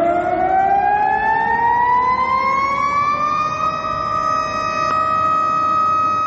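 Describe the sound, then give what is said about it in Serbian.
City sirens wail in Belgrade at noon for a memorial minute of silence, one loud sustained tone with strong harmonics that slowly rises in pitch for a few seconds, then holds steady and even. “Tačno u 12 sati u gradu su se oglasile sirene”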